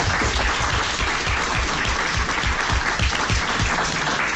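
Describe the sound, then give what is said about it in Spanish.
Applause for students sitting in a radio studio audience, a steady, full wash of many hands clapping at once, loud and unbroken throughout. “Eu pediría un aplauso para os vosos compañeros, si os parece,”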